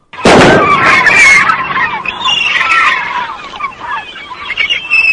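A single loud, sharp gunshot from a gun fitted with a silencer bursts out at the start, followed by a lingering mix of noise and murmur for several seconds.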